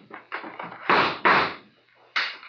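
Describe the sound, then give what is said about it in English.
Gunshots fired in a radio drama ring out as several muffled, punchy bursts, three of them much louder than the softer reports before them, spaced unevenly with brief gaps between. “Keep shooting, Saxon, in the dark. You got four shots left.”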